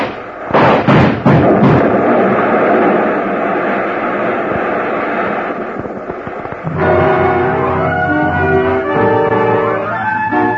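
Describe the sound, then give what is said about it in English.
A car blows up as cordite powder in a Buick's trunk and gasoline ignite. A few sharp, loud bursts give way to a long roaring rumble, then music takes over. “The car went up in a blast of powder and gasoline”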